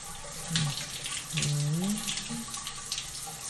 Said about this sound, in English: the soothing sound of droplets hitting the floor beneath us